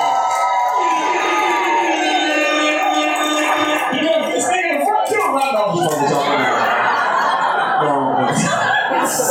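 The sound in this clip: Comedy club audience cheering and laughing for the host, a loud, continuous mix of chuckles, whoops and excited crowd voices that grows busier and more scattered toward the end.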